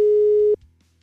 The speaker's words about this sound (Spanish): A ver si se puede que la vuelvas a marcar. A ver, ya le estoy marcando